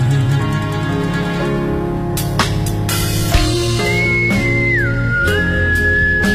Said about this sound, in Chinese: 你不会吹口哨是吗？ 吹不到这么高，他一吹就爆了。